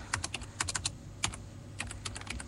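Fast typing on a computer keyboard while an ID number is entered into a voter-registration website, many sharp clicking keystrokes in uneven bursts separated by brief pauses, with no voices.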